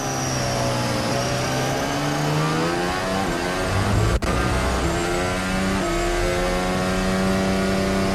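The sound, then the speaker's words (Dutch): A race car engine with a misfiring cylinder, not revving high, drones loudly with its tone rising and falling as the revs change, broken by one sharp click partway through. “Klinkt alsof die cilinder mist, hè? Niet hoog in de toeren ook.”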